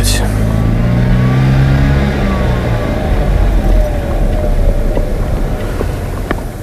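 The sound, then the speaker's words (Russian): Car driving on a road, a steady, loud engine drone with rumbling road noise that holds throughout without clear breaks. “Питер позади. Сейчас вертанешь направо. Нечего там у поста ГАИ отсвечивать.”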